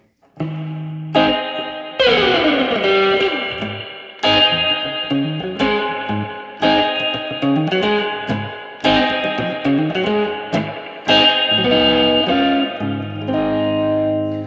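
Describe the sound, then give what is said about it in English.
Electric guitar played through a '63 spring reverb effect, with gritty distorted chords and single notes in several phrases, each struck loudly and left to ring out in a long, splashy decay. “Here's a 63 spring reverb. Let's see.”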